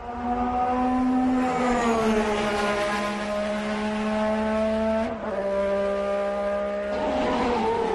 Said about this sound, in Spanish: va a pilotar el McLaren con el que fue campeón en 1988, el McLaren MP4-4. Y suena así, un sonido que va a emocionar a los nostálgicos.